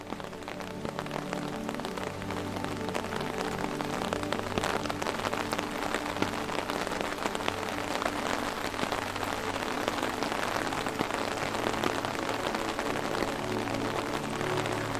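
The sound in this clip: Steady rain falls on a street at night, a dense, continuous hiss of drops hitting the surface that holds an even loudness throughout, with no voices.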